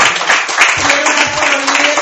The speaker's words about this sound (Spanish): Le doy un aplauso al Señor.